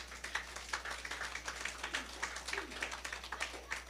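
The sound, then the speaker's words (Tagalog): A church audience claps in worship for God. The clapping is fairly faint and comes as a run of quick, roughly regular beats over a steady low hum. “Pwede ba natin palakpakan ng Diyos doon?”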